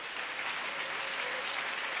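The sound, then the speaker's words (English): Congregation clapping together during a worship service in a church. It is a steady, unbroken wash of handclaps at moderate level, with no voices over it. “Let's clap our hands to the”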